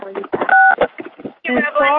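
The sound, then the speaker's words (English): A steady two-note phone keypad tone sounds once from an unmuted phone line during a meeting call, cutting in among people talking. “I think your phone is not on mute. I think they're typing.”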